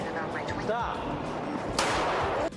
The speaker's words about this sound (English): He turns and shoots the guy in the gut.